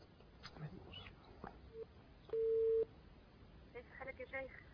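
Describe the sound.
A short steady telephone line tone, roughly half a second long, marks a listener's call connecting to a call-in program, standing out clearly amid quieter talk before and after it.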